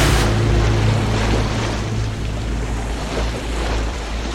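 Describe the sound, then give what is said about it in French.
Sea waves wash onto a beach that is being fouled with oil from a stranded tanker. A loud, steady, broad rushing roar swells and eases slightly, with no voices. “de Port-Salle, de Ploudalmézo, le bourg voisin, qui contemplent atterrés leur plage que chaque vague souille un peu plus”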